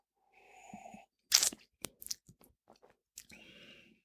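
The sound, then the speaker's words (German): A sip taken from a drink in a glass: a loud slurping burst, then a few brief wet mouth clicks and swallowing noises, ending in a softer breathy hiss. “Warte, ich nehme auch gerade nochmal einen Schluck.”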